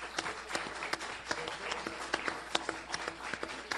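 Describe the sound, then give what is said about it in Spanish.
Applause for the cook at an anniversary celebration, a faint, brisk patter of many hands with sharp individual claps standing out at an irregular, quick rhythm. “yo quiero un aplauso para el chef. Sí, un aplauso para el cocinero.”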